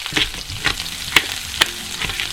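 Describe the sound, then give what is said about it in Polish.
Fat sizzling as chicken fries in a hot pan, a steady crackling hiss broken by several regular scraping strokes about every half second. “jak już tłuszcz zaczyna świerczeć”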